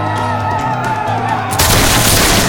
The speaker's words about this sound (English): The discipline drilled into him by Iron Shirt and his closest followers dissolved when six warriors toppled from their saddles in the volley.